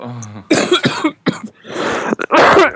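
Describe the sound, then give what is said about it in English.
Hard coughs blast straight into a microphone: a few loud, harsh bursts in quick succession after a brief voiced sound. “When you do that, you cough really hard into the mic.”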